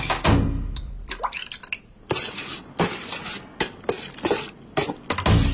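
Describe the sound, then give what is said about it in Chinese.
Wet squelching and clicking as thin slices of Inner Mongolian lamb from the hind leg and upper neck are quickly stirred into a seasoning sauce. The sounds come as many quick, irregular slaps and clinks, with no talk. “将切好的羊肉加入料汁，迅速搅拌。”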